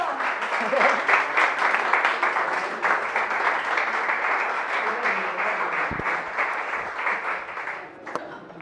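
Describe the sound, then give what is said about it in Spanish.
Audience applause welcoming a speaker to a talk on art therapy: a dense, steady wash of many hands clapping that holds at an even level through the whole clip and eases slightly near the end. “¡Un aplauso!”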